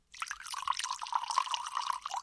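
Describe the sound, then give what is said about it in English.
Jack Daniel's whiskey poured from the bottle into a glass for a double, a steady bright trickling gurgle of liquid lasting about two seconds, with no talking. “So what you need is one bottle of Jack Daniel's and one glass, and you pour”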